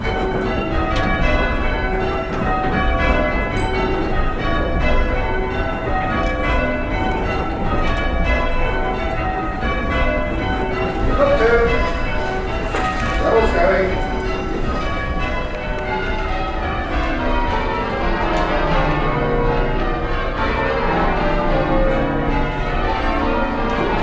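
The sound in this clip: Church bells are rung in rounds with the treble leading, a continuous steady cascade of many overlapping strikes whose ringing tones blend and sustain throughout at a fairly loud level.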